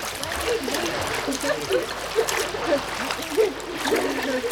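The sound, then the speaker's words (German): Water splashing in a pool as children swim to the edge, a steady churn of splashes and dribbles with faint voices mixed in. “Und jetzt schwimmen wir zum Rand.”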